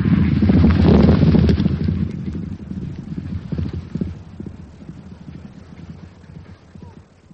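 Horse hooves clip-clop steadily through a ride, a continuous rhythmic patter of hoofbeats that is loudest at first and gradually fades.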